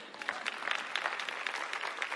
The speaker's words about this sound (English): Yeah, somebody else clap for that.